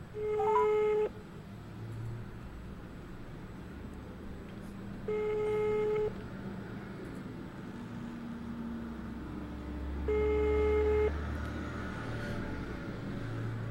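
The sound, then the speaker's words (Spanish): Ringback tone of an unanswered telephone call: three evenly spaced tones, each about one second long and roughly five seconds apart, faint over a low background rumble. “Vamos con esa llamada.”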